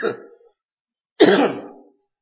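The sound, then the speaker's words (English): Two bursts of coughing or hard throat clearing from a man preaching a sermon. The first is brief and fading; the second, after a pause, is louder and rougher. Both occur alone, with no talk. “I'm going to go quickly before I start coughing again.”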